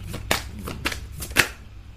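Tarot cards are handled and shuffled from the deck, with several crisp papery snaps and flicks over a soft continuous rustle.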